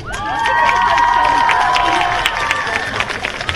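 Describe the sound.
A crowd cheers and shouts for a freshman representative introduced at a high school football game. The roar is loud and sustained, with high whistle-like tones, and it eases slightly toward the end.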